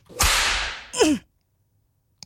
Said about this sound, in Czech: teď dostaneš ránu bičem